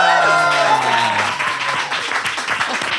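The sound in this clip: An audience cheers and claps for a pop star at a live taping set up like a restaurant table. A voice calls out over the first second, then a dense, steady wash of applause continues.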